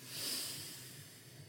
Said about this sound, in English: It's like this. Inhale deeply. Exhale. Inhale to begin.